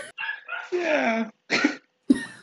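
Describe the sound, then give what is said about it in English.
A dog being pet-sat gives a few short, harmonic yelping calls, including one longer whine-like sound, with silent gaps between the bursts. “is that your fucking fire alarm? No, that's a dog I'm sitting right now.”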